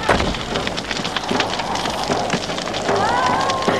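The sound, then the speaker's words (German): Flames crackle and hiss steadily as a house burns, a dense, continuous rush of noise that holds a fairly even loudness from start to finish. “Das Haus brennt.”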